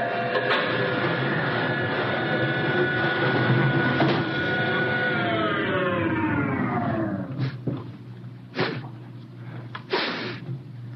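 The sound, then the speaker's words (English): The outer airlock of a spaceship opens with a long, loud hissing rush of air, its whining tones sliding steadily down in pitch before giving way to a few sharp, abrupt bursts of noise. “open the outer airlock”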